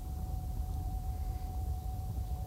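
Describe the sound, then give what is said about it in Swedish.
Rumbling car engine heard from inside the vehicle, a steady low drone with a faint thin whine running through it, unbroken and without talk. “Det låter ju väldigt högt i den här bilen. Det är väldigt brummande liksom, motor.”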